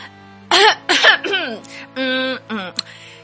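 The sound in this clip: A person clears their throat in several rough, voiced bursts with short breathy pauses between them. The sounds are loud and close, with no words spoken.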